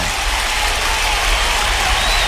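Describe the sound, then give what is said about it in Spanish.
Applause from a crowd, dense and loud, forming a steady, unbroken wash of claps from start to finish. “Un aplauso.”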